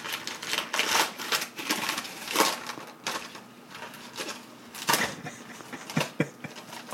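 A sealed bubble wrap mailing envelope is torn open, producing bursts of crinkling, ripping and crackling plastic. Many sharp rustles come in irregular clusters, with a few louder tears standing out.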